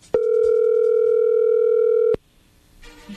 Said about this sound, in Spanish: ahí se está marcando